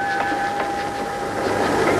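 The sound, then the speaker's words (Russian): A train pulls in, the number 75 service arriving from Finland. It makes a steady, loud mix of rumble and rattling with sustained high whining tones held throughout. “Какой поезд? 75-й, из Финляндии.”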